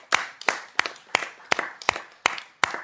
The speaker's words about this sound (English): I'm sorry, but we have to clap again because it is another